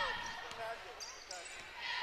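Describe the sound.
A basketball is dribbled on the court during a game, a few sharp bounces standing out against steady court noise.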